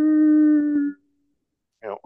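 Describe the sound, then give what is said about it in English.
A human voice imitates a long first coyote howl: one sustained, steady-pitched tone lasting about a second, then a pause and a brief burst of talk. “if you're ever out fishing or something, or getting your deer stand, and the first coyotes that howl, usually they're a longer howl,”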